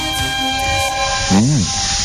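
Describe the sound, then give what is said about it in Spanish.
A steam locomotive starting up: a sustained whistle tone rings over loud hissing steam for about two seconds. “Ahora le pido a nuestro operador que arranque la locomotora porque salimos de viaje a través del conocimiento.”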